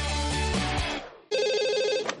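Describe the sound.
A warbling electronic telephone ringtone for an incoming call, a steady trilling pulse that starts abruptly and stays loud, right after a short musical phrase fades out.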